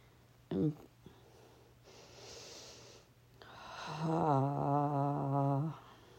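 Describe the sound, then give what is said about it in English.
Deep breathing during a guided relaxation exercise: a soft, airy inhale is followed by a long, voiced, sighing exhale that holds a steady pitch, with a brief sniff near the start. “taking some deep breaths to settle into the moment.”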